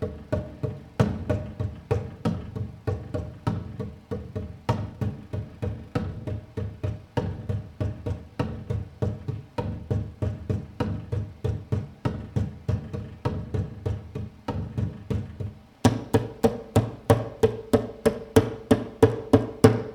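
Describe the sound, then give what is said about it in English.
A computer desk is drummed by hand as a rhythm instrument. Many dull, knocking thumps fall in a steady repeating rhythm, then near the end the pattern switches to brighter, sharper, more evenly spaced hits. “In this episode, I'm going to be playing computer table as if it was a rhythm instrument. It may sound unusual, but hey, it works. Okay, I'm going to start with a simple rhythm.”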